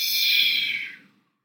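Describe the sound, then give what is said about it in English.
A slow breath gives one soft, airy hiss that holds briefly and then fades away to silence. “Breathe in. Breathe out.”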